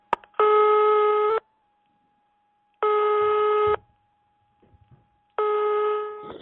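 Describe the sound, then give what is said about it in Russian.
Telephone ringing for an incoming long-distance call: three long, buzzy, harmonic ring bursts separated by pauses, with a faint steady tone between rings. “наступает иногородний звонок.”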